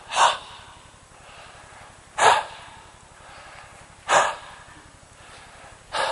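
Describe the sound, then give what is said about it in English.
A person breathes out onto their hands in four short, airy exhalations, evenly spaced about two seconds apart with near quiet between them, and no talk. “he says, when he had said this, he breathes on them. He goes,”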